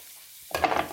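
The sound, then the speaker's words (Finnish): Onions sizzling in a frying pan: after a quiet moment, a steady crackling hiss starts suddenly about halfway through and stays loud to the end. “uskoa tai älkää, kuuletteko, alkaa sihisemään mun sipulit.”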